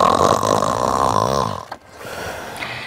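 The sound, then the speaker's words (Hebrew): A voice imitates a cat purring loudly, for a cat in a circus tent. It makes a sustained buzzing drone with a rough, rhythmic rattle underneath, then breaks off into softer breathy noise. “בלב אוהל קרקס, יולנדה דמיהו מגרגרת בקול, וכולם אומרים,”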